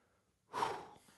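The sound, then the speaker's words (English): A single breath drawn in, a soft rush of air that starts about halfway through, swells quickly, then slowly tapers away, with no talking around it. “I just took a breath.”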